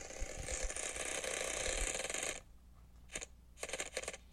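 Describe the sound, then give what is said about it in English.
A wheel spun for a letter-picking word game gives off rapid ratcheting clicks for about two seconds, then stops abruptly, followed by a few isolated clicks as it settles. “We are going to give the wheel a spin, and hopefully it will be a little kinder.”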